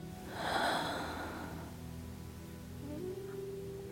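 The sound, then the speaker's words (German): A deep breath drawn in during a guided breathing exercise: one soft, airy inhalation lasting about a second, then quiet with a faint low, steady hum. “Lass deinen Ex-Mann vor deinem inneren Auge auftauchen und atme tief in deinen Körper hinein.”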